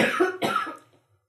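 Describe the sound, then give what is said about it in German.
Two sharp coughs from someone who has choked on tea, close together and fairly loud, followed by a brief fading breath and then quiet. “Ich hab mir am Tee verschluckt.”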